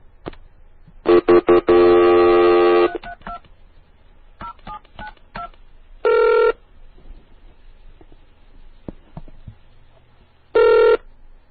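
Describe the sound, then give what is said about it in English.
Telephone keypad dialing tones call out over a dial-up line, beginning with a rapid, loud run of tones, then a few brief beeps and two longer tone bursts spaced several seconds apart over quiet line hiss. “using DOS and Procom and dialing up everything I can. And I'd call Kokots, and I'd get some really cool noises. So I'm going to call one right now.”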